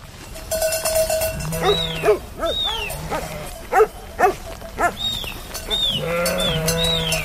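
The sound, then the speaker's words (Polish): A flock of sheep bleats in a large pen at a Tatra mountain shepherd's hut before milking: many loud, wavering cries overlap in quick succession over a low, busy background. “Juchasi i bacowie wcześniej zagonili owce do takiego dużego kojca. No i była pora dojenia owiec.”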